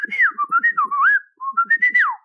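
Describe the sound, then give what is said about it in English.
Human whistling traded back and forth by two people waiting outdoors by a sheep and goat pasture at dawn: a clear, fairly loud melodic whistle with swooping, sliding notes in two phrases split by a short pause. “They passed the time happily enough, whistling back and forth to each other”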